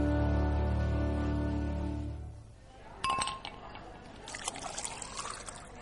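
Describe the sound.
Liquid pours into a glass, opening with a bright clink and then a trickling, splashing stream, after a sustained tonal passage fades away.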